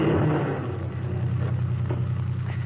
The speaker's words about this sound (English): Certainly we turn the key, like this. Then we step on the starter.